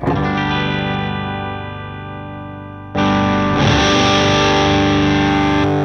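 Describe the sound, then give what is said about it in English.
An electric guitar plays through an M300 reverb pedal. One chord rings out and slowly fades under a long wash, then a second, brighter chord is struck about halfway and sustains loudly to the end. “I love this, I think it's the M300 reverb pedal.”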